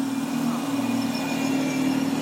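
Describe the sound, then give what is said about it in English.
An R7 route bus engine runs at idle, giving a steady low mechanical hum with a constant droning tone and a faint higher whine, unchanging throughout with no voices. “Is that the bus? It's not our bus, is it? An R7.”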